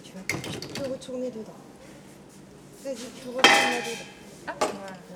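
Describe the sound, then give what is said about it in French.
A utensil clinks and scrapes against a bowl while chocolate mousse batter is mixed until no egg yolk shows, in a few sharp metallic bursts with voices briefly heard. “Et là, il faut mélanger jusqu'à temps qu'il n'y a plus de jaune. Je te laisse faire.”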